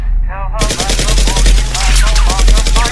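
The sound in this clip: Gunfire erupts in rapid, machine-gun-like bursts, many sharp cracks packed closely together and staying loud throughout, with people's voices talking over the shots.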